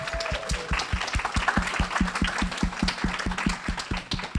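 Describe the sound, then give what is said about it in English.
Audience applause at an honor society event: dense, loud clapping carried over a steady, fast rhythmic low thumping that runs throughout. “I hope that we can have a moment to have a round of applause for Ari”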